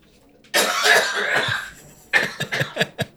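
Coughing after inhaling whiskey: one harsh, drawn-out cough followed by a quick string of short, sputtering coughs.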